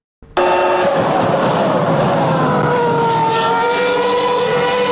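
A McLaren V10 Formula One engine bursts in suddenly and screams with a loud, sustained high-pitched whine rich in harmonics, its pitch sliding gradually lower over several seconds.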